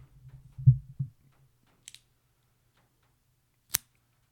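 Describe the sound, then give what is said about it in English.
Cutter snipping a Dunbarton Tobacco Red Meat Lover's cigar: soft low thumps at first, then a faint tick, and finally one sharp, crisp snap standing alone in near silence. “There we go. We cut it. Ladies and gentlemen, we cut it. And that beautiful stick being cut was Dunbarton Tobacco's”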